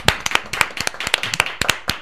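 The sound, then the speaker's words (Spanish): Applause for a flamenco-style sung performance: many sharp hand claps from a small group in an uneven, overlapping rhythm, with no talk. “Bravo, creo que se merece un aplauso de verdad, ¿no?”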